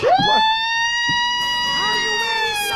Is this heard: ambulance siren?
yes

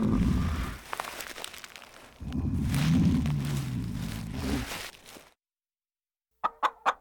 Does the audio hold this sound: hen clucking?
yes

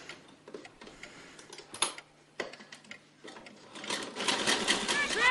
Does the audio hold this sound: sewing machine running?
yes

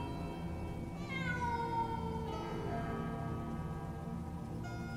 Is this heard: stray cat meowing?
yes

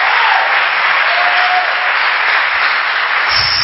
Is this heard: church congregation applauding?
yes

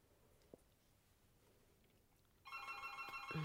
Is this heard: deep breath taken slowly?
no

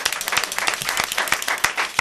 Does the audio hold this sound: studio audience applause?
yes

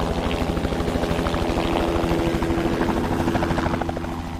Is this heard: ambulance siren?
no

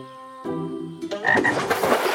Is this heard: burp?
no

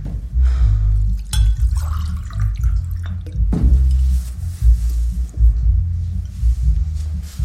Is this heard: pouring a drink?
yes

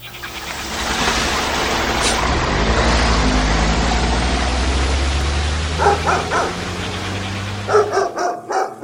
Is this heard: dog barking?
yes

